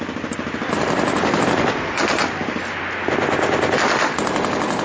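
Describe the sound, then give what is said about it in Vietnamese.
Rapid bursts of machine-gun fire near a canal at Cầu Muống form a loud, dense, continuous rattle lasting the whole stretch, with only slight dips between volleys and no voices. “Thêm mấy loạt súng nổ khang ở phía kinh cầu muốn rồi tất cả đều im bặt.”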